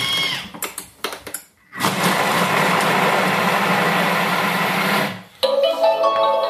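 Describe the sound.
A kitchen food processor runs on speed 5 chopping onions, producing a loud, steady motor whir for about three and a half seconds. A few sharp clicks and clatters come before it as the lid and measuring cup are fitted.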